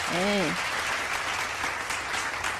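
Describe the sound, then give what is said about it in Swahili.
Applause on a Swahili radio call-in show: steady, dense clapping that holds at an even level throughout, with a brief voice at the very start. “Nakusindikiza na makofi yako.”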